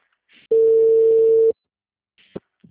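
Telephone ringing tone on a call that goes unanswered: one steady, mid-pitched tone lasting about a second, heard alone against near silence, with only faint brief noises afterward.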